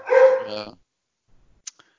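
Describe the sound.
A single short bark from a dog at home, a tonal yelp under a second long, followed by near silence and a couple of tiny clicks.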